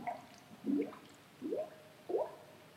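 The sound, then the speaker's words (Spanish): Underwater bubble sound effect: a few short, gurgling bloops, each rising quickly in pitch, spaced about a second apart over a quiet, low background. “Y fijaros, y este es el otro formato de burbuja que me interesaba.”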